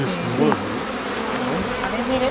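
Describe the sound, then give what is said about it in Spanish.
Honeybees buzz at a hive where a young bee is emerging from its cell, a dense, continuous drone of many wings at an even, moderately loud level. “mejor que visto vamos a ver cómo nace una abeja. Mira, el nacimiento de una abeja.”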